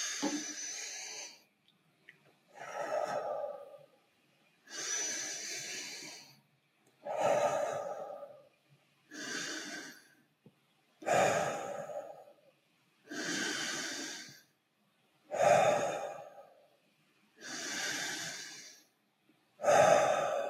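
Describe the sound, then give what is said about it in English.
Slow, deliberate breathing in and out: ten breathy, fairly loud breaths in a steady rhythm with short pauses between them and no talk. “Inhale and exhale.”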